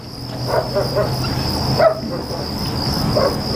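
Faint barks from an old dog, excited: a few scattered, short barks over a steady, high insect-like drone.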